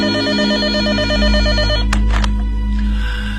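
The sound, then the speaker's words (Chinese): A telephone rings early in the morning with a steady, repeated electronic trill that carries for about two seconds and then stops, leaving a low background hum. “苗正还在睡梦中就被电话吵醒了”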